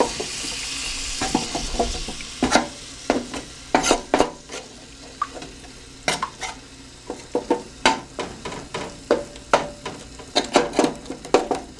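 Gravy sizzling in a pan over high heat, a steady frying hiss broken by many sharp stirring scrapes and clicks that come quicker and busier toward the end.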